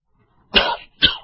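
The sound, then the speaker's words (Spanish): Two sharp, throaty coughs from a person who is preaching. They come close together, and the first runs slightly longer than the second. Nothing else is heard around them. “Ahora me está atacando con la tos”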